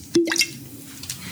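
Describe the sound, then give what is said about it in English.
A brief liquid glug and splash as 2012 Applegate Valley Viognier white wine is poured from a bottle, a quick gurgle with a rising bubbly tone followed by a faint trickle, heard alone. “Did you hear that? That is the sound of a 2012 Applegate Valley Viognier.”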